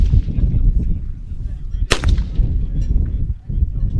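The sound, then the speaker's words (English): An M16 service rifle firing a live round on a Marine range: one loud, sharp crack rising above a steady low rumble. “fire live rounds from the Marines' weapon of choice, the M16 service rifle”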